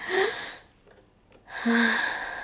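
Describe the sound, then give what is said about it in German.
Deep breathing in and out through the mouth during a stethoscope check on the back at a doctor's examination: one loud breath, a short quiet pause, then a second longer breath. “Jetzt bitte einmal tief durch den Mund ein- und wieder ausatmen.”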